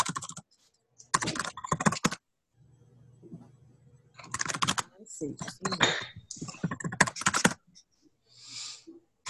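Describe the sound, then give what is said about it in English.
Computer keyboard typing, fast and clicky, while someone navigates a software admin panel: several quick bursts of keystrokes separated by short pauses, moderately loud over a faint steady hum. “oops, typing too fast”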